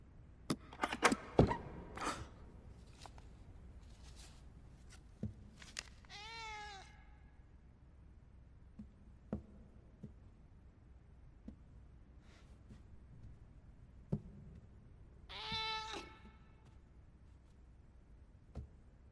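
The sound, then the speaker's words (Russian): A kitten meows from inside a chest: two drawn-out, wavering cries several seconds apart, with scattered knocks and thumps around them and no talk. “В сундуке был котенок.”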